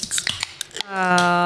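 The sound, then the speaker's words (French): A can of non-alcoholic beer is cracked open: a few sharp metallic clicks and taps, then a steady, bright fizzing rush that holds to the end. “on va ouvrir notre canette de une bière. Une petite belle gueule sans alcool.”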